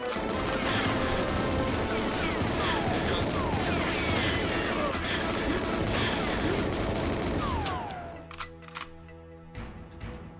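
Gunfire from a gun in the GoldenEye video game: a loud, dense, continuous barrage of shots and crashes that suddenly drops off, leaving a few sharp, isolated bangs.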